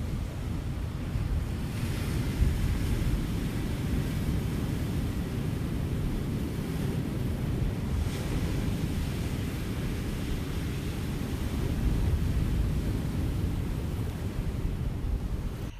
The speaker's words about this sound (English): Now, it's quite a crashing sea down here at Riverton. And so I have recorded three little clips.